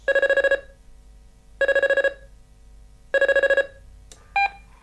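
A telephone rings in three evenly spaced bursts of rapid electronic trilling, followed by a brief, different beep at the end.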